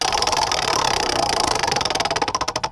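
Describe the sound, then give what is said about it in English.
A number generator spinning during a phone-in competition: rapid mechanical ticking and rattling that stays steady, then slows into more widely spaced clicks toward the end, with no talk over it. “So, let's spin the number generator. Here we go, first spin.”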